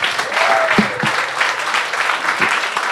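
A short stretch of audience applause as a performer named Ryan is introduced, with steady dense clapping that holds at an even level from start to finish.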